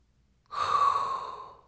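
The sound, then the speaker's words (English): A single deep breath drawn in, lasting about a second, moderately loud and alone with no talk around it. “inhale a hot breath”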